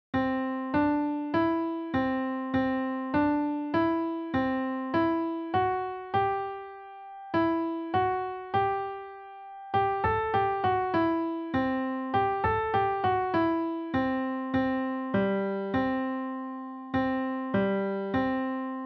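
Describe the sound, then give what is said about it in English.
A French lullaby melody played in C Lydian, with the F raised to F sharp, on a single instrument with decaying tones. A steady run of clear notes is broken by two short pauses midway before the tune carries on alone. “Okay, now let's put it into C Lydian by raising the F note up, making it F sharp. Now the melody will sound like this.”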